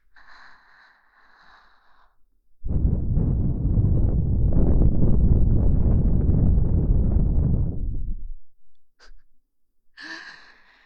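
A strong gust of wind: a loud, steady rushing roar that starts abruptly, holds for about five and a half seconds and then cuts off, with quieter sounds before and after.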